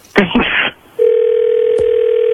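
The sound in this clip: A telephone dial tone sounds as a call is placed back: one steady, even-pitched hum lasting over a second. It follows a short burst of talk at the start, and a faint click briefly interrupts it near the end.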